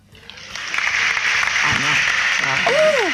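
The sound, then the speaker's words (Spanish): Studio audience applause at an improv comedy show: a dense, steady clatter of clapping that swells over the first second and then holds loud, with a voice speaking over it. “En el estudio está aplaudiendo como loca.”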